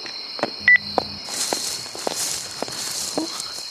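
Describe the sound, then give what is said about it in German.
Footsteps on a short walk through a park: several evenly paced steps, each a soft crunching tread, over a steady high-pitched drone. “Und das ist ja nur ein kurzer Spaziergang durch den Park. Bin gleich zu Hause.”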